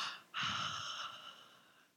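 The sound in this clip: Breathing during a church sermon: a single long breath, a sharp intake followed by a slow, fading exhale, faint and without talk.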